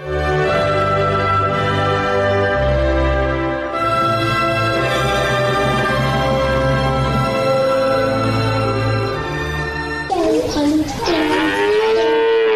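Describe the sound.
Cows mooing in a cowshed, with long, drawn-out low moos that overlap continuously, then a higher, sweeping call near the end.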